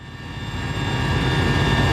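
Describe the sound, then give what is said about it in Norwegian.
A helicopter flying over a forest fire in Spain: a dense engine drone with a low, rough thumping underneath and steady high whine tones, growing gradually louder over two seconds with no voices. “Fra et helikopter ser statsminister Pedro Sánchez på brannen.”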